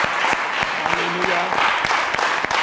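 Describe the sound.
Applause from a church audience at the close of a French-language worship service: dense, steady clapping with sharp individual claps and voices mixed in throughout.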